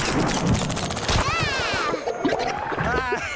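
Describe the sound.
A cartoon peanut butter blaster fires in loud, dense, splattery bursts and whacks that continue throughout, mixed with warbling, zippy tones.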